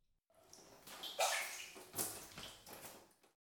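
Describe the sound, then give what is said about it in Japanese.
Water sloshing and dripping as feet are lifted out of a hot-water foot bath: a few soft splashes and trickles rising and falling, quiet overall. “足湯もそろそろおしまいですね。お湯から足を上げていただいて。”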